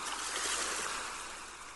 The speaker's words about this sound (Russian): Шум прибоя погружает вас в приятную дремоту.